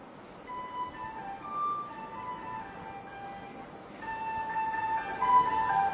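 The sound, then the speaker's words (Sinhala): A vehicle passing along a road: a steady rumbling wash with thin whistling tonal lines running through it, growing louder over the last two seconds. “අර මොකද්ද පාර ගියේ වාහනේ?”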